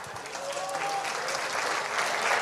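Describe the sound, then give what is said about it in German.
Audience applause at a civic gathering in Kapfenberg, dense, even clapping that carries on steadily throughout and swells slightly toward the end. “Und ich glaube, das ist einmal einen kräftigen Applaus wert.”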